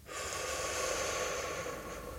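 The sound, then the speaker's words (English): A long, steady breath, one continuous airy hiss that holds at an even level for about two seconds with no voice over it. “Breathe in. Breathe out.”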